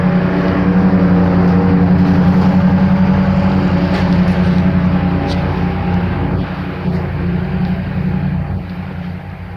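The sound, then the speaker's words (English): Riding mowers running on the other side of a brick wall make a loud, continuous engine drone with a steady low hum and buzzing overtones, easing slightly in loudness toward the end. “Yes, that background sound is riding mowers on the other side of this brick wall here.”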